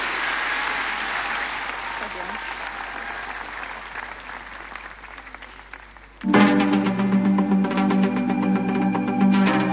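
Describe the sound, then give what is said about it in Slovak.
Audience applause at a church gathering honoring religious sisters and brothers, a dense, even clatter of many hands that slowly thins. Near the end it gives way to a louder, pitched passage. “tak jeden veľký potlesk sestre Mariane”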